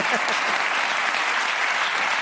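Audience applause as a volunteer is called up on stage: dense, steady clapping from a crowd, loud and uniform for the whole stretch with no pauses.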